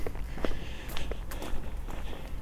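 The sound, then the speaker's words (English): Footsteps on a fast walk toward a city centre, a steady run of many quick, crisp steps at an even brisk pace, heard alone without talk. “I'm having my constitutional. I'm going to take a fast walk up to the city centre and sit in a cafe for 15 or 20 minutes when my way home.”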